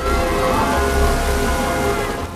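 Lashing rain in a windswept forest during a storm, a dense, steady hiss of heavy downpour with low rumbling underneath, loud and constant throughout, with no voices.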